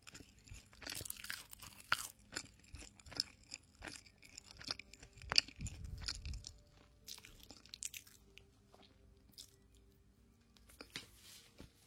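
Soft, glutinous food being chewed close by, with quiet, irregular wet smacks and crunchy bites spaced unevenly.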